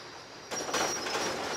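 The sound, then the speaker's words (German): A Mammut track renewal machine lifting railway sleepers gives off broad mechanical rushing noise that jumps up in loudness partway through, carrying a thin high whine and continuing steadily. “Da taucht er jetzt die sogenannten Mammutzähne rein. Darum heißt das Ding auch Mammut. Er senkt jetzt sozusagen die Spitzen dort runter und darüber nimmt er dann die Schwellen auf.”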